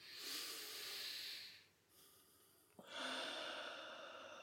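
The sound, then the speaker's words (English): A deep breath: soft, hissing airflow in two long phases separated by a brief pause, faint and steady, with no talking. “Nice deep breath.”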